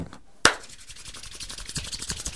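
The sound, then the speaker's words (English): Hands rubbed together fast: a sharp onset, then a steady, brisk swishing friction of palm against palm, repeating in many quick strokes with no talk. “Friction, rub your hands together real fast.”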